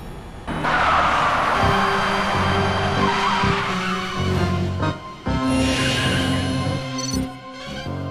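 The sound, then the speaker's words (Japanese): A Fiat car drives along the E45 road toward San Marino, its engine roaring steadily with squealing, skidding tires, the loud sound briefly dipping a couple of times partway through. “ルパン三世のフィアットは E45 サンマリノ方面に向かい走行中。”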